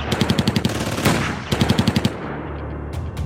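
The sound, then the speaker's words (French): Rapid automatic gunfire in a shootout on a Belgian motorway: two tight volleys of loud, sharp cracks separated by a single heavier blast, fading into a low rumble. “C'est un déchaînement de coups de feu.”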